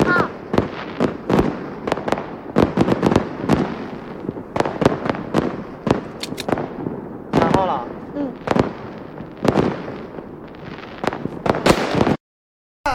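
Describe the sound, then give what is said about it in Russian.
A fireworks salute bursts in many rapid bangs and crackling pops, one after another with hardly a pause, while people talk in between. The display cuts to a brief silence near the end. “Паршивый салют.”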